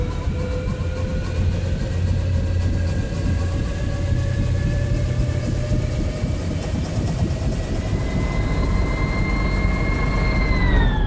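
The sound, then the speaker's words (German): Dense, continuous engine drone of a heavy 70-ton aircraft cruising high in the stratosphere: a loud, unbroken low rumble layered with sustained harmonic whining tones that holds steady throughout, with no voices. “Die 70 Tonnen schwere Maschine fliegt auf 15 Kilometer Höhe.”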